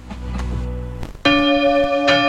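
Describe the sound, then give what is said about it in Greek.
Church bells ringing, a loud, bright strike partway through that holds a long, sustained metallic tone with many ringing overtones, following a quieter, softer passage at the start. “Δεν μπορώ άλλο με τις καμπάνες.”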